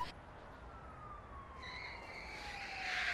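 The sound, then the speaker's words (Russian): Police car driving off: a steady tone glides slowly downward in pitch, joined halfway through by brighter whining bands that grow gradually louder toward the end. “Джек выбегает на улицу и садится за руль полицейской машины.”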